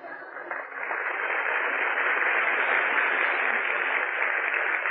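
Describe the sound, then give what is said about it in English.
Audience applause at a 1943 breakfast show at Sardi's, a dense, steady wash of clapping that swells after the first second and then holds, muffled and narrow-toned on an old recording. “Well, go on, applaud.”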